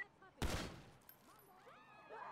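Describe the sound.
Gunfire in a police video game: a sudden loud burst of shots rings out early, then fades into a lower, noisy tail with fainter sounds.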